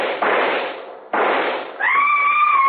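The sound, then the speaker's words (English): Rifle shot in a radio drama: two loud, noisy blasts about a second apart, each lingering briefly, followed by a steady high whistling tone. “I was taking no chances. I raised my rifle and...”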